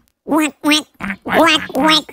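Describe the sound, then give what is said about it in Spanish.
A human voice imitates a duck quacking, giving several nasal, honking quacks in quick succession with short gaps between them. “¿Y cómo hace un pato? Un pato.”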